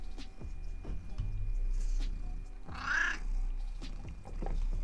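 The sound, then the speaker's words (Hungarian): A cat purring as a faint, low, continuous rumble throughout, with one brief higher cat call about midway. “És most egy kicsit dorombolsz is.”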